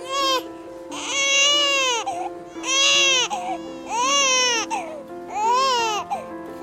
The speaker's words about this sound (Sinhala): එතකොටම බබා අඬන්න පටන් ගත්තා.